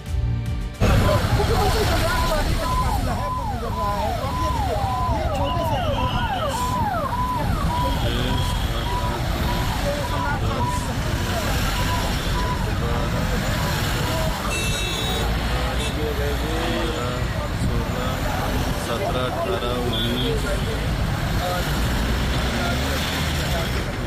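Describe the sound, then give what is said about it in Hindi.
Road traffic from the vehicle convoys of the Punjab and Bihar chief ministers: a loud, steady rumble of engines with voices mixed in throughout. “इनमें एक काफिला है पंजाब के मुख्यमंत्री भगवंत मान का और दूसरा काफिला बिहार के मुख्यमंत्री सम्राट चौधरी का। देखिए,”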